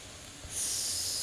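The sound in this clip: A long, steady hissing 'shh' exhale during a breathing exercise, rising quickly after a brief, quiet breath and holding at an even level to the end.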